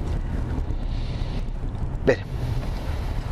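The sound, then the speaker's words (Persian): A boat crossing a very wide river gives a continuous low engine rumble mixed with wind buffeting, with a brief louder rushing burst near the middle. “داریم از یک پل بسیار، از یک رودخونه بسیار بسیار عریضی بچه داریم رد میشیم.”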